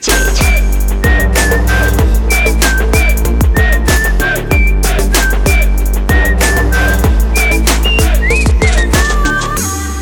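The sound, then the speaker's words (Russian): A bright whistled melody of short repeated phrases runs over a loud pop song with a steady driving beat and bass, continuous and prominent throughout. “хватит свистеть. Хватит свистеть.”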